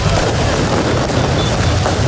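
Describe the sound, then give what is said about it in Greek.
Fireworks bursting over a festive city celebration in Paris, a loud, dense and continuous wash of booms and crackle that stays at an even level throughout, with no clear gaps between blasts. “Βεγγαλικά και συνθήματα συνθέτουν το εορταστικό σκηνικό στην πόλη του Φώτος.”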